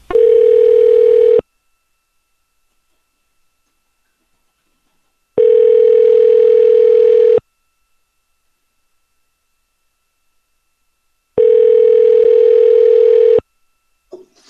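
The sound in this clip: Ringback tone on a call placed to an office desk phone line: three steady, loud mid-pitched tones of about two seconds each, separated by long silent gaps.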